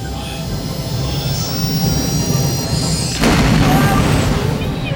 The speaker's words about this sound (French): Les grandes portes battantes de l'atelier s'ouvrent et le père fait démarrer sa machine.